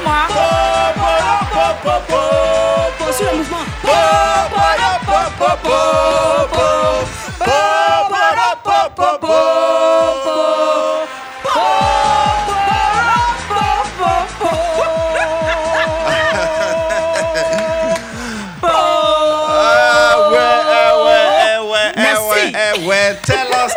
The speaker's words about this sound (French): On va s'arrêter là et ovationner notre invité de ce soir